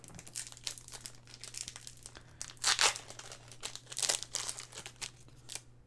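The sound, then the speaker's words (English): Trading cards being shifted and handled on a desk: soft, faint crinkling and papery rustles in uneven bursts over a low steady hum, with a few louder crinkles partway through. “I'm just gonna move down some of the cards here”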